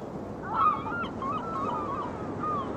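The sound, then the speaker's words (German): Seagull cries over a steady hiss of distant sea surf, set where a 19th-century ship is anchoring; a few thin, wavering calls rise and fall above the constant wash of waves. “Schiff des 19. Jahrhunderts beim Ankern. Entfernte Meeresbrandung. Möwenschreie.”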